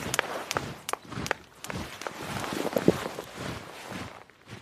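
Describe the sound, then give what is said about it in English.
Marching footsteps of an army approaching, heard as many steady, rhythmic thuds that keep an even pace and moderate loudness throughout, with no voices. “It sounds like marching. Hurry, we have to hide under the bed.”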